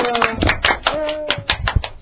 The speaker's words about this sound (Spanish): ¡Un aplauso para Estefano!